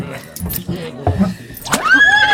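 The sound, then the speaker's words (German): A horse whinnies beside a waiting horse-drawn wagon. The whinny is a single high, wavering call that swells and trails off near the end, after a stretch of low, muffled sounds. “Pferd und Wagen stehen bereit”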